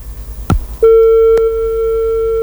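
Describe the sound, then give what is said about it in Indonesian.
A telephone tone follows a disconnected call on a studio phone line: a short click, then a steady mid-pitched tone that sounds continuously, loud and unbroken, to the end, with no talk. “Wah, terputus sambungan teleponnya.”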